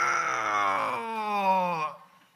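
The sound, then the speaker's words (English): A voice imitates an apple tree groaning with a drawn-out, strained, moaning groan. It holds for nearly two seconds, then fades away. “I've never gone by an apple tree and like heard it groaning. Just like, and imagine going by an apple tree and hearing like,”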